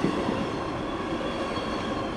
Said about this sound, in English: they got this massive machine that's got to pull this wood from underneath the rails.